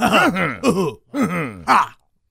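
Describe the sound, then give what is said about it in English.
Rough, strained throat clearing by a man struggling to clear his throat, sputtering like an old car trying to start. Four groaning, gravelly vocal bursts with wavering pitch run close together, then silence. “It's like an old car trying to turn on. I couldn't get my throat cleared, man.”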